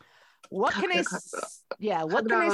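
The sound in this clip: A voice imitates a boar's grunt in two loud, drawn-out, nasal bursts with wavering pitch, separated by a brief pause.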